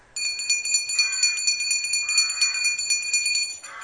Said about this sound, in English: Then, to make quite sure, he knocked the knocker, and he pulled the bell rope.